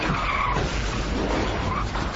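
Tires skidding loudly on a car in a Volkswagen Jetta shock advertisement, a harsh continuous screech that holds steady for about two seconds.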